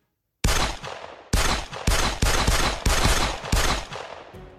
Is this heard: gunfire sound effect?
yes

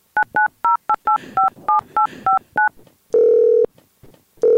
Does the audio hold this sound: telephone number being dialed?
yes

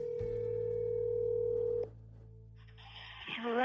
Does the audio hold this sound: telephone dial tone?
yes

